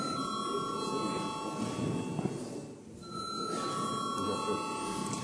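An electric bell rings in a parliament chamber ahead of a vote, a steady, shrill ringing tone that drops out briefly midway, then resumes over faint background noise.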